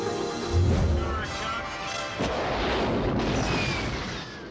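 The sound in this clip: Deep booming bursts representing the sonic boom of Yeager breaking the sound barrier over Edwards Air Force Base in 1947. A heavy boom comes early and a second burst follows, with voices and tonal sounds underneath.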